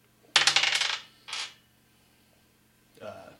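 Dice roll across a table during a tabletop role-playing game: a rapid, loud clatter of many clicks, a shorter rattle soon after, and a fainter final clatter.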